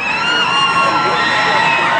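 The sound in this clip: Passengers of the disabled Carnival cruise ship Triumph, stranded five days in the Caribbean, cheer and whoop as it returns to port, a loud continuous mass of shouting voices with high yells riding on top.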